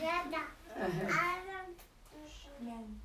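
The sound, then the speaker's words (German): A baby babbles during a sermon in several voiced bursts of high, wavering pitch, separated by short pauses. “Our baby wants to preach to us.”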